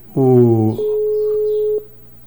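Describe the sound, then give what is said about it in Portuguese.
A telephone call rings through on the line: a short voice-like burst, then one steady mid-pitched ringing tone held for about a second before it cuts off. “Vê se ele atende. Alô, Casadão, atende aí.”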